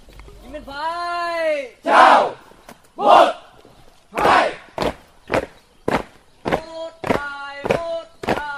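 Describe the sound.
A shouted drill command to soldiers of an air-defence brigade on a training ground, followed by heavy rhythmic stamps of marching feet and loud chanted shouts from the group.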